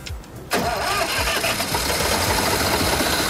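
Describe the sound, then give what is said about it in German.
A tractor engine in Bavaria starts with a screwdriver in place of the ignition key. After a brief quiet moment it catches abruptly and settles into a loud, steady, rough running rumble. “Das ist Bayern, da wird der Traktor mit dem Schraubenzieher angeschaltet.”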